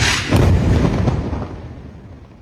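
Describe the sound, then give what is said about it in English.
Blast from an Israeli missile strike on a residential building in the Nasser neighborhood: a loud, deep boom with a sharp onset that rolls into a heavy, rumbling decay fading over about two seconds. “Al Jazeera shared this video of an Israeli missile strike on a residential building in the Nasser neighborhood on September 12th.”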